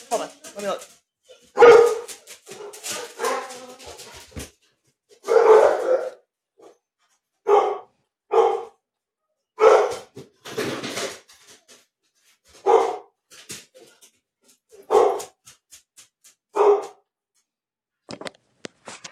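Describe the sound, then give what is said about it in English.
Dogs barking outside in repeated short, sharp bursts spaced a second or two apart, with voices talking in between the barks. “Oliver can hear Amber's dogs. He thinks they're outside.”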